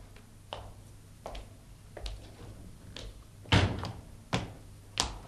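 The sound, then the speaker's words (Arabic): A door being opened, heard as a series of sharp clicks and knocks that grow heavier toward the end, with no voices. “هذا عمر، سأفتح له، ادخل يا خباب هنا حتى لا يراك.”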